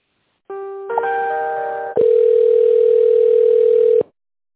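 Telephone line tones while an office call is being transferred: a short electronic chime of layered tones, then a loud, steady single tone held for about two seconds before it cuts off abruptly.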